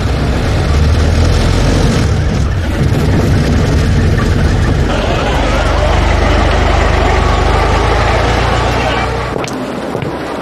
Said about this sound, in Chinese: 加速。